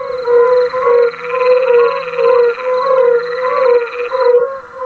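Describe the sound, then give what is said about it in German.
Fire-bellied toads call in a chorus of soft, mellow hooting notes that repeat rhythmically and overlap one another, with a thin steady high tone running underneath throughout. “Da hört man jetzt Unken.”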